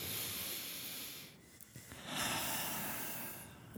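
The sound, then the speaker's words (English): A deep breath taken with eyes closed, heard as a long, airy hissing inhale followed after a brief quieter pause by an equally long, steady exhale, both breathy and soft with no talking. “Everyone close your eyes. Take a deep breath.”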